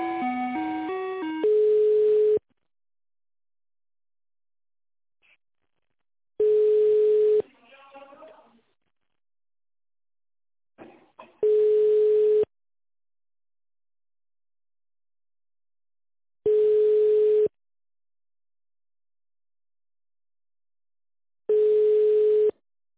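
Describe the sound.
A telephone line tone plays while a call is transferred to an extension: a short chime at the start, then five steady, mid-pitched beeps spaced about five seconds apart, with near silence and faint brief noises in between.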